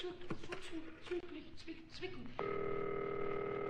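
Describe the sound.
A telephone tone sounds as a number is called: after a stretch of talking, a steady electronic tone with a bright, buzzing edge begins abruptly and holds unbroken to the end.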